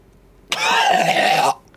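A single harsh, rasping cough from a seated person convulsing, drawn out for about a second, loud and alone against near silence.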